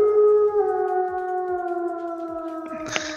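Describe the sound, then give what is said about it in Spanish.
A wolf-howl sound effect plays as a cue for a wolf emoji. One long, sustained howl drifts slightly downward in pitch, then a short, noisy burst sounds near the end. “volvió el señor emoji de lobo Daro-Wolf”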